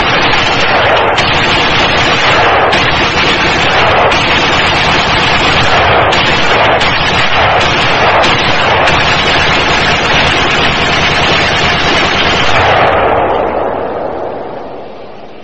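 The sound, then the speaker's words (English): An AK-47 empties a 75-round drum magazine by bump firing with only a finger and no device. A long, loud, unbroken stream of rapid gunshots lasts about thirteen seconds, then trails off as the firing ends. “an AK-47, a 75-round drum through an AK-47 with no device, no assistance whatsoever other than a finger.”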